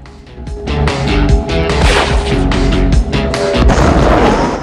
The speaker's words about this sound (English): Mark races away as the plant becomes an inferno. Behind him, hundreds of barrels of oil are flung in the air. The plant is a giant fireball.